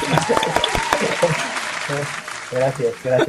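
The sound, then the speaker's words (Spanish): Applause fills the opening second or so as a dense patter of clapping. People then start talking over the fading noise. “Aplausos. Aplausos sin para duda.”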